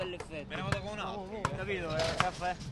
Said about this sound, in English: Hundreds of teens and 20-somethings are playing basketball in a 16th-century piazza on a Sunday.